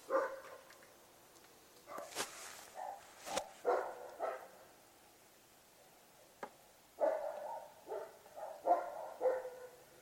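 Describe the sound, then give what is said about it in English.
A large dog barks in a series of deep, loud barks in irregular bursts, with short pauses between clusters and quieter gaps in the middle. “that dog sounds huge.”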